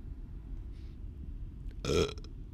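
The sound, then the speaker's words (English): A single short, loud burp breaks out near the end, a rough throaty belch standing clearly above a low steady background hum. “we also burp sometimes.”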